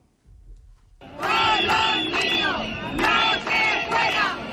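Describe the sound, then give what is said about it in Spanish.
Loud crowd noise in the streets of Ceuta: many voices shouting and chanting together, swelling in after a brief quieter start and staying dense and sustained throughout. “Escuchad las calles de Ceuta ayer.”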